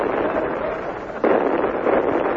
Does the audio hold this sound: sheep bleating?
no